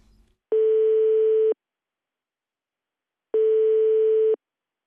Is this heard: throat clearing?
no